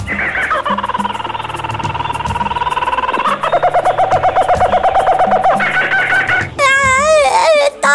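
A frightened young monkey caught in a net cries in sustained, pulsing wails over a constant background, ending in warbling, high-pitched squeals.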